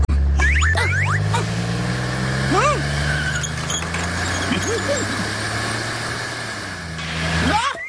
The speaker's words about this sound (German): Huch, ein Rennauto.